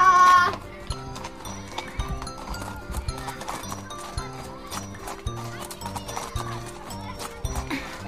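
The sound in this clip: Clip-clop of a horse walking off with children riding on its back: steady, rhythmic hoofbeats continue throughout at a moderate pace, fairly loud and even.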